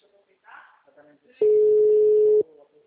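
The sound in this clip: A phone call's ringing tone sounds once as a steady, mid-pitched electronic tone lasting about a second, clearly louder than the faint voices around it.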